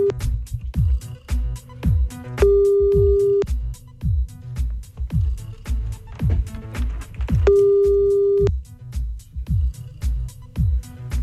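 An outgoing telephone call rings twice. Each ringback tone is steady, mid-pitched and about a second long, sounding over a loud, pulsing rhythmic beat.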